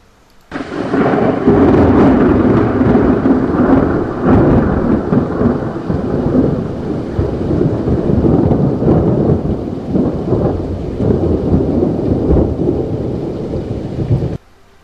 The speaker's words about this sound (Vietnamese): Ầm, lại là tiếng sấm, nó còn vang dội hơn cả vừa rồi.